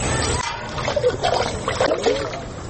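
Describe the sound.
Water sloshes and splashes in a container as a woman carries it from a pond at dawn in a Kyrgyz border village, with irregular soft splashes and trickles under a voice talking.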